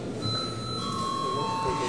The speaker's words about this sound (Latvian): Lūdzu zvanu.